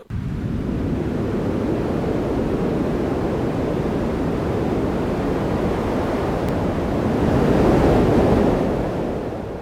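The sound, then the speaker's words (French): Large ocean waves crash around a sailing ship in a storm, a loud continuous roar of surf and wind that swells even louder near the end. “vagues effrayantes déferlèrent de tous les côtés.”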